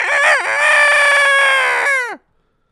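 A single loud rooster crow lasting about two seconds, with a brief dip at the start, then a sustained harmonic call that drops off sharply at the end, followed by silence.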